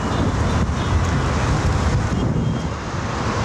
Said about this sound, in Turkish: Irak'ın Necef şehrini kum fırtınası vurdu. Şehirde görüş mesafesi azalırken trafikte aksaklıklar yaşandı.